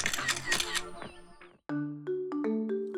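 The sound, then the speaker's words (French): A camera shutter fires for a selfie in front of a sunflower field, with a few sharp clicks, each followed by brief ringing tones, after a short pause. “Oh my god, check les fleurs. On prend un selfie.”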